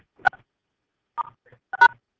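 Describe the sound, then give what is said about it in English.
Telephone keypad tones as star six is pressed on a phone: a few short, clean electronic beeps, separated by silent gaps and with no talking. “We got somebody with a cough, we really need you to press star six on your phone, ma'am.”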